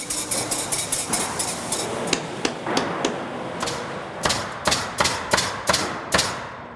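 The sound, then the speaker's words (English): Machines in a home-building factory fire boards into place with many sharp, rhythmic bangs over a constant industrial hum. The shots fall in an irregular cluster at first, then settle into a quicker, more even beat. “The machines hold the board straight while they get shot into place. It's almost like an orchestra, the rhythm that happens in this place.”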